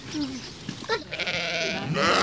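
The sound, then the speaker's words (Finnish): Sheep bleating at an animal park where children feed a lamb: a few wavering, nasal bleats, fairly loud and alone over steady background noise. “Tiedeleirillä Vehmasmäen eläinpuistossa lapset ruokkivat puttipossua ja latelammasta.”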